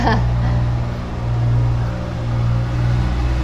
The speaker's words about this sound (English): as we let some giant vehicle go past